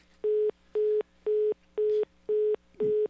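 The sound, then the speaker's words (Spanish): Six short, even beeps of a telephone busy tone as a call fails to connect. The pitch is steady, the rhythm regular, and the beeps sound alone. “La llamada no prosperó.”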